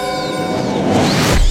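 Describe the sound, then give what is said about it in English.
A magical vanishing effect as a witch disappears in a puff of smoke: a loud, swelling shimmer of sweeping tones and airy whoosh that thickens and builds toward the end. “Don't be surprised, Toto. That's how you expect a witch to disappear. A puff of smoke.”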